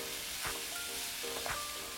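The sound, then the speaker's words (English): Potatoes, carrots and onions sauté in a pan for a Thai beef curry with lemongrass, giving a steady, faint sizzling hiss broken by a few soft stirring scrapes. “Now that we've extracted all those flavors, we'll add potatoes, carrots, and onions. And we'll just saute that for a few minutes.”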